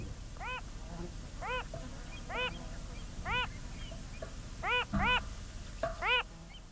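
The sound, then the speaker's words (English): Wilson's phalarope calling from a salt lake: seven short, nasal, quacking notes at irregular intervals, fairly faint above a low steady hiss. “And this is the call of that spinning bird of Salt Lakes, the Wilson's phalarope.”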